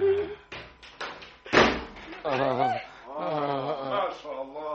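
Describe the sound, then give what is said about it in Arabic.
A window is shut with a single hard bang during an Egyptian radio play, with voices talking before and after the thud. “استنى ما قفل الشباك.”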